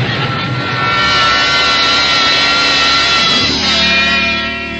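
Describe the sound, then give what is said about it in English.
An avalanche sound effect from a radio drama: a loud, steady, dense rumbling roar that runs continuously without voices and shifts in tone partway through. “Your shot started an avalanche, and it's coming our way.”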